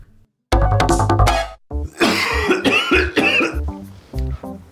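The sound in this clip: A heavy coughing fit: a long run of loud, harsh coughs and throat clearing, rough and repeated, heard alone with no talking.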